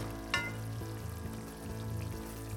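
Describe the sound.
Pancake batter frying in a pan gives a faint, steady sizzle with soft crackling and one brief sharper pop near the start, with no voices.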